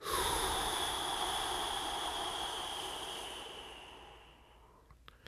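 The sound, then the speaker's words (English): A slow, steady breath, drawn as one long airy rush that starts full and gradually thins and fades over about five seconds, with no talk over it. “In through your nose for a count of four. Hold for seven. And out for eight.”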